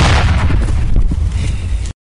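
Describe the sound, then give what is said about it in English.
United Nations mine clearance workers detonate unexploded ordnance at Amei village, southeast of Juba, in a loud, deep blast. The roar rumbles on for nearly two seconds and then cuts off abruptly. “United Nations Mine Action Service workers detonate an exploded ordnance at Amei, a village located 135 kilometers southeast of Juba. Fire!”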